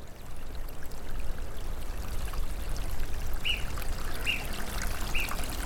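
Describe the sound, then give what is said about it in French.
A small trickle of water runs in a mountain torrent, making a steady, soft rushing hiss throughout. Three brief high chirps stand out over it in the second half. “Et là, il y a un petit filet, il y en a quand même, mais il y a un petit filet qui n'est pas du tout habituel à cette saison-là”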